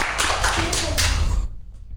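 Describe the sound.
Audience clapping breaks out after a call to applaud, a dense patter that carries for about a second and a half before dropping off abruptly, with voices mixed in.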